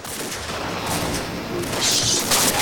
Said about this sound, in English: The regulators ride out, shooting their weapons as men pile out of the hut.